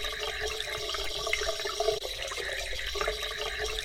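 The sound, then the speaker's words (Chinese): Running water rinsing a man clean after something was applied to him, a steady, even rush of water with light splashing variations throughout. “那我们来冲水吧。来，让先生冲干净。”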